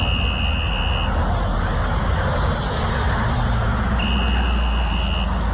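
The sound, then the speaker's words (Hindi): Car sound: a loud, steady roar with a high buzzing tone that sounds at the start, drops out, then returns near the end. “ए रुक, कुछ सुनाई नहीं देती? और ये पुकार है आपकी गड्डी की”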